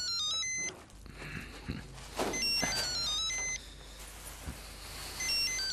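A telephone rings electronically after a call is placed, giving a run of high beeping tones that shift in pitch, with a few low thumps between them.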